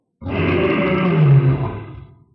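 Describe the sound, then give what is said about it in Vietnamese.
A lion's roar from a human-headed lion beast in a fantasy battle: one deep, rough, sustained roar lasting about two seconds, swelling slightly before trailing off. “Sư tử hống lại tái xuất, cùng lúc đó là bổ nhào tới trước, nó rung lắc toàn bộ thân thể khiến cho lông xanh đầu người dựng thẳng.”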